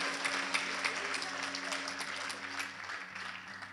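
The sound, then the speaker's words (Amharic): A church audience claps for God in dense, steady applause, with low sustained tones held beneath the clapping the whole way through. “ጮህና የምትፈልጉ አዎ በሉና አጨብጭቡ ለእግዚአብሔር”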